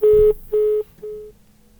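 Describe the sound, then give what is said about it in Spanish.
Phone line tones follow a call that has just cut off: three short, steady beeps of equal pitch, evenly spaced, the third noticeably fainter than the first two, with a low hiss beneath. “Oh, se cortó la llamada.”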